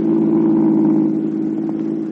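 A car driving home from downtown: a steady, loud mid-pitched engine hum with a low rumble, easing slightly in level toward the end, with no voices.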